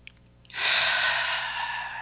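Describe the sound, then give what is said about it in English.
A long, deep breath drawn in during a guided spiritual reflection. It begins about halfway through as a soft, airy rush that swells and holds steady for over a second, alone with no talk. “So if we were to take a deep breath”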